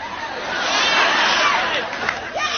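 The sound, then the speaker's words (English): Noisy studio audience at Oprah's talk show: a loud, continuous babble of many overlapping voices that swells slightly and stays dense throughout. “Can't hear you over your stupid audience, Oprah.”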